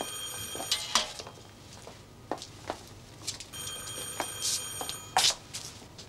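A telephone rings with two bursts of bright, high metallic ringing separated by a pause, fairly faint, amid scattered soft knocks and rustles.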